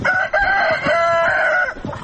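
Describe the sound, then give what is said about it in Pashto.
A rooster crows in a house yard among about fifteen hens and roosters scratching in the dirt, giving one long, loud, drawn-out call that breaks off near the end. “دا کور په انګړ کې 15 چرګې چرګان په خاورو کې مشو کې وهي.”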